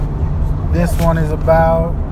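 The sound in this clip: Low, steady engine and road drone inside a car during a weekend drive home, running continuously beneath a person talking throughout.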